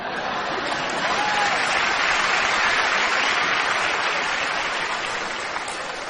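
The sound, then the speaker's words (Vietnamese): Loud audience applause fills a stage show. Dense, continuous clapping holds at a steady high level for the full six seconds, with no pauses. “Em thấy các ông có vẻ vỗ tay hơi to đó.”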